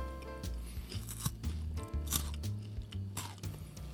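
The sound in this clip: Crisp bites and crunching into a peach-scented chocolate wafer, a series of sharp, brittle cracks and chewing sounds repeating irregularly and fairly faintly throughout.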